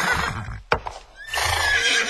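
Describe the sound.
A dangerous, unruly horse that bites and kicks lets out a loud, sustained whinny with a strained, harmonic tone, broken by a sharp click midway before the call resumes strongly.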